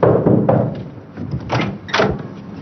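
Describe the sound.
A door is opened inside a home with a few dull clunks and a scraping rattle. The sounds are fairly loud, with quieter gaps between them.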